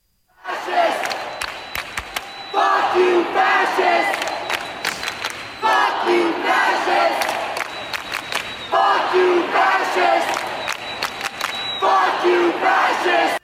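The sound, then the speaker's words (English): A youth protest crowd chants at the Tennessee Capitol in Nashville, shouting the same phrase again and again in loud bursts separated by brief gaps, with sharp hits or claps between them. “Here's the sound of the youth protest. In other words, tomorrow's voters at the Tennessee Capitol in Nashville.”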